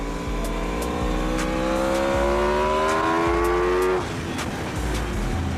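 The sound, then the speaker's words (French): A motorcycle engine runs on a track with a steady whine that climbs gradually in pitch, then drops away abruptly near the end. “La douceur du moteur, c'est incroyable.”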